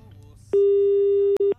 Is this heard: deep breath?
no